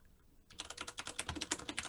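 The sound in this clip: Quiet typing on a computer keyboard during a search, a rapid, uneven run of many soft keystrokes that starts after a brief near-silent moment.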